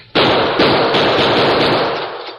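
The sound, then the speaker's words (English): Gunshots are fired at a metal chain staple. A sharp, loud blast is followed by another shot within half a second, then a dense, roaring wash of noise that slowly fades. “I'm going to try some bullets on that staple. Move back as far as you can.”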